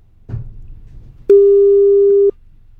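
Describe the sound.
Telephone tone heard after a caller hangs up: a brief low knock, then a single steady mid-pitched tone that holds for about a second before cutting off abruptly.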